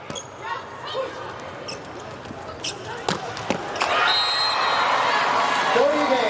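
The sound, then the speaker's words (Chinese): A volleyball serve in a China versus Turkey match: a couple of sharp ball smacks stand out over steady crowd noise and a commentator's voice. “傅拱王先来发球”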